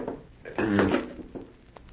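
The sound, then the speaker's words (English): A safe is opened, then a cash box: one short rattling metal clunk, followed by a few fainter knocks and scrapes. “There's a safe behind it. Yes. Now watch. I shall open it and you shall see. There. Now this cash box.”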